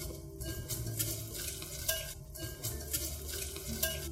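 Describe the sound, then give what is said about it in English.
Whisking batter with sugars in a large mixing bowl until smooth, a steady swishing and scraping with light rhythmic clinks of the whisk against the bowl, continuous and fairly loud with no talk. “And then add in all our sugars that we had set out earlier. Whisking until smooth.”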